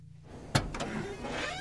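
A person getting out of a car left parked by a field: one sharp door-latch click is followed by two softer clunks and a rustling shuffle, all fairly quiet.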